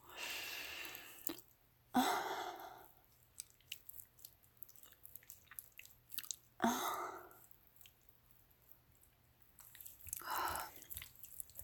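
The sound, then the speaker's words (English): Wet, slippery mouth sounds as saliva drips from the mouth: faint squishes, smacks and soft breaths in a few separate bursts, quiet overall. “What if I just let saliva roll out of my mouth?”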